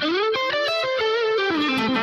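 Blues rock electric guitar played with light distortion plus delay and reverb: a sustained, singing lead line of many connected notes that bends and steps between pitches and drifts lower toward the end, with a smooth, ringing tail.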